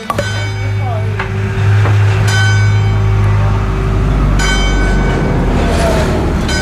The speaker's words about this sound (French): C'est la nationale, et en fait on est au bord de la voie de chemin de fer et de la nationale 113.